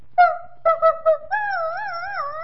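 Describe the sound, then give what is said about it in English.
A young dog, a puppy, howls: four short yelping notes, then one long, sustained, wavering howl that stays fairly loud to the end. “the youngest dog, which was really a puppy, would point her nose to the moon and then she would begin to howl”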